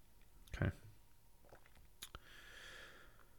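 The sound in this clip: A few faint, sharp computer mouse clicks sound while someone navigates a website. A quick pair of clicks comes near the end, over soft breathy background noise.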